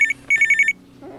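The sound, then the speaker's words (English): A telephone rings in a house at one in the morning, a bright trilling bell that gives a short burst and then a longer run of rapid pulses, followed by quiet. “Is that the phone? You stay here and go back to sleep. I'll get it.”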